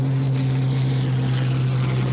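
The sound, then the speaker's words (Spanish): Steady drone of a small aircraft engine as the plane makes another pass over a boat at sea in a World War II setting: a continuous low hum with strong tonal lines, even in loudness throughout, with no voices. “La avioneta hace otra pasada.”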